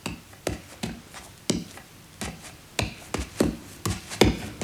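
Knocking: many dull, woody knocks in a loose, uneven rhythm, each short and fairly firm, with a low background hiss between them.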